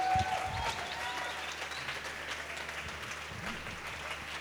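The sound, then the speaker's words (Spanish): Audience applause for a live gamelan group at a concert: a dense, steady wash of clapping that lasts from start to finish without any single voice standing out. “Un fuerte aplauso para el Club de Gamelan.”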